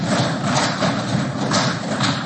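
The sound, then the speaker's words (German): An audience knocks hard on new tables in a council chamber, making a loud, dense, continuous rattle of many overlapping knocks that swells and eases slightly. “Ich weise nur darauf hin, die Tische sind neu, wer so fest aufkommt, muss auch damit rechnen, dass sie dann kaputt gehen.”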